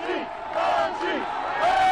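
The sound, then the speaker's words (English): A crowd cheering and chanting at a World Series victory parade as players ride by on cable car buses. Loud yells and whoops rise and fall in waves. “every new player brought an eruption of cheers and chants from the crowd”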